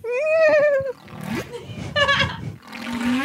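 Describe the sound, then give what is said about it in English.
A person imitates a sea lion bark during a game of animal noises, voicing a few loud, hoarse, honking calls with strong harmonics, the first long and wavering, the others shorter and rougher. “Okay, I'm just going to go back to the sea lion bark.”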